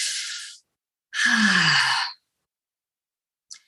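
Audible breathing, heard alone: an airy breath, a longer breath carrying a low voiced sighing tone, and a brief faint breath sound at the end.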